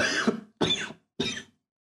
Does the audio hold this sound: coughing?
yes